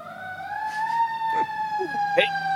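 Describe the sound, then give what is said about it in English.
An emergency vehicle siren wails on a city street in Washington, DC: a loud, steady high tone with bright overtones that glides up slightly early on and holds, with a few brief voice sounds over it. “Pardon the sirens behind us. We'll have to edit this out.”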